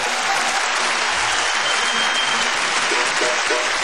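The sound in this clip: Dense, steady applause from a bluegrass music audience welcoming a Kentucky fiddler on stage, loud and sustained from start to finish.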